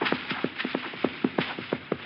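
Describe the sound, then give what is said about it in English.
A horse's hooves clip-clopping, many quick, evenly spaced hoofbeats in a steady trotting rhythm, clear and moderately loud with no talk. “Hey, a horse. Ahead of me somewhere.”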